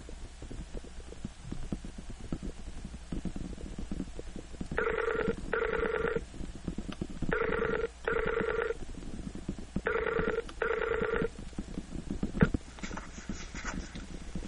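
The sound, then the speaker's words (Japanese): An outgoing Skype call ringing as it waits to be answered: three pairs of bright, buzzy electronic ring bursts repeating at a steady pace over a constant low background hum. “これすごいですね、本当にスカイプって。よいしょ。出るかな。”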